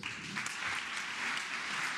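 Applause from a packed audience of business leaders and politicians at Mexico's presidential palace. Many hands clap in a continuous, fairly soft roar that stays level throughout.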